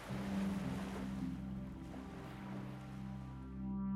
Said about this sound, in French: Et vous entendez le bruit des vagues qui vont et qui viennent.